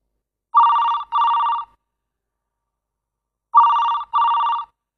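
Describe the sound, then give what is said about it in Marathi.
A telephone rings for an incoming call at night in two double-ring bursts. Each pair of steady electronic trills is separated by a clear pause, and no one talks. “2 दिवसांनी रात्री 10 वाजता भाचीचा phone आला.”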